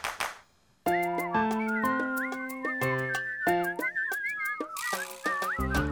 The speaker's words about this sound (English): Please don't whistle.